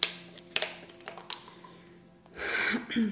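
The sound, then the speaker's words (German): Microphone being put down and a bottle opened: a few sharp knocks and clicks spaced apart, followed by a brief rushing, hissing rustle near the end. “Ich muss kurz das Mikro ablegen, Leute. Ich muss meine Flasche öffnen.”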